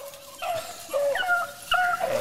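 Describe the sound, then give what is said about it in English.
Beagles whimper and yip in a few short, high-pitched whines, with brief rising and falling squeals and small barks, fairly soft, with no talk. “It's important that we've let the beagles loose. Yeah, they're loose.”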